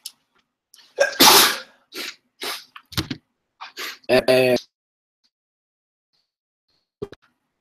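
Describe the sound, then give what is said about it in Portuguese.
A sneeze bursts out loud and broad, followed by a few shorter breathy and voiced bursts, then near silence with one faint click at the end. “Deixa eu ver aqui. Espirrar.”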